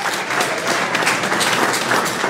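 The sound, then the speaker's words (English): Congregation clapping hands in praise during a church worship service, a dense, steady wash of many hands applauding together without a break. “clap your hands and give God some praise.”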